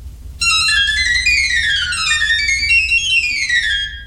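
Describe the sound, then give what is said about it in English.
High, whistling piccolo pipes of a Chiappa barrel organ, three pipes to each note, play a quick run of bright notes that mostly steps downward. The notes are clear and steady, with no talk. “Here are the piccolos.”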